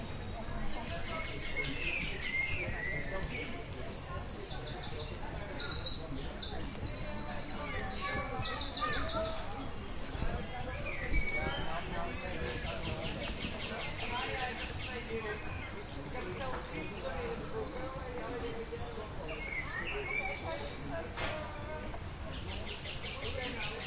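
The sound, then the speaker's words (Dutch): Birds sing in a park: bursts of high chirps and trills cluster in the first seconds, and scattered tweets follow over a dense, steady background. “ik ben nu even op bezoek bij de vogels, zoals je hoort.”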